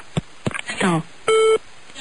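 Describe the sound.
A phone line gives a single short, mid-pitched electronic beep after the caller hangs up. It follows a few brief knocks and a voice-like burst.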